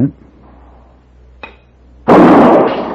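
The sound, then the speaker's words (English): A single gunshot fired at a target: one loud, sharp blast that bursts out near the end and rings off briefly, preceded by a faint light tap of a ball striking the target. “Now, as I let go of each string, the ball will tap the target. So you listen very carefully and shoot as quickly as you can.”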